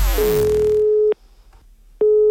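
A telephone ringing tone on a prank call line sounds as two steady, mid-pitched bursts about a second long, separated by a silent gap, with the second burst running to the end.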